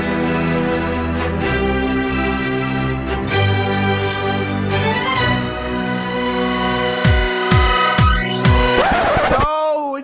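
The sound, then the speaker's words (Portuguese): Electronic intro jingle for the Bichas Nerds show, with layered sustained synth tones and shifting chords, then a run of quick descending swoops before a warbling flourish that stops abruptly. “Então, roda a vinheta, o Bichas Nerd está no ar.”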